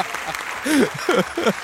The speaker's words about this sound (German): Das ist doch mal ein kleiner Applaus wert, oder? Das geht ja runter wie Öl.